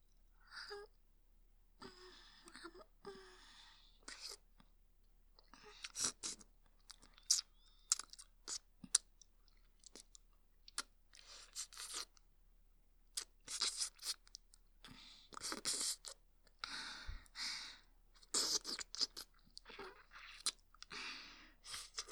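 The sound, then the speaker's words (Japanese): Close ear nibbling and licking into a microphone: many soft, wet mouth clicks, smacks and crunchy bites arrive in irregular clusters, mostly quiet with sharper peaks, over a low steady hum. “じゃあいっぱい噛んでペロペロしちゃうね。”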